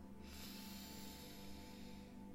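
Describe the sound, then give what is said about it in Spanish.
A slow, deep inhale through the nose during a guided breathing exercise, heard as a faint, even, airy rush that lasts a couple of seconds without a break. “Vamos a hacer varias inhalaciones por la nariz y exhalar por la boca. Inhala”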